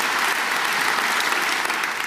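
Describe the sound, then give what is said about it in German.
An opera house audience claps together in loud, sustained applause. The many overlapping hand claps blend into a thick, uniform roar that stays level from start to finish. “Jetzt können wir auch noch mal gemeinsam klatschen.”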